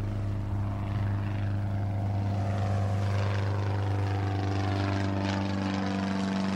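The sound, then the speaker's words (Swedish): An airplane flies overhead and circles above people adrift at sea, its engine a steady, loud droning hum with a low propeller-like buzz that holds without a break from start to finish. “Plötsligt hörs ett ljud över dem. Han kisar och kollar uppåt. Ett plan flyger precis över dem. Är det en hallucination? Planet cirkulerar en stund innan det lika fort försvinner iväg och det blir tyst igen.”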